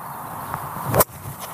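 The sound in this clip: A golf club strikes the ball out of a sand bunker: a single sharp, sandy thump with a brief swish. It stands out clearly over quiet outdoor background noise.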